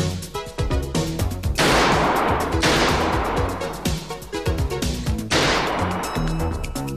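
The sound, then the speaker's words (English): Gunfire at a busy shooting gallery during target practice: a few sharp, loud shots, each followed by a ringing decay, spaced unevenly across the stretch. “He walks into a busy shooting gallery where people take target practice at a moving black and white projection of gangsters. Keep the grip tight. There you go. Fire when you're ready.”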